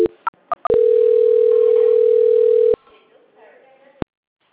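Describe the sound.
Telephone call transfer tone: a few quick clicks and short blips, then a loud steady tone lasting about two seconds that cuts off abruptly, leaving a faint line hiss and a single click.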